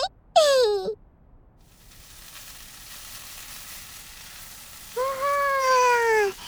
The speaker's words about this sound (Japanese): それじゃあ玉ねぎ炒めるからね。